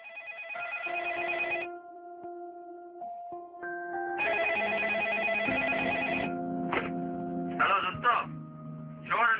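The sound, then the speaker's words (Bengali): Electronic telephone ringing as a call is placed: a steady, bright tonal ring phrase, a brief pause with softer tones, then a longer repeat of the ring followed by short chirping notes. “অস্থির হয়ে শেষমেশ সে phone করলো তুষারকে।”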